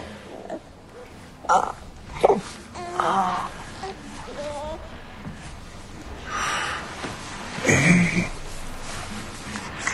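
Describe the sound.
A fussy baby boy whimpers and moans in short, irregular bursts with snuffly breaths between them, while people talk softly nearby.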